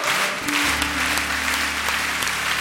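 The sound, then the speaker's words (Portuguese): A church audience applauds the word of God in a Portuguese-language service. Steady, dense clapping continues throughout, and a sustained low tone joins beneath it shortly after the start. “E aplauda mesmo a palavra de Deus.”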